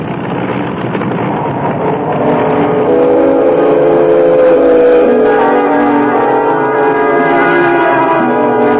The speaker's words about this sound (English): The engine seems to have lost its harmony. Yes, the harmony is gone. Well, do something. We can't crash.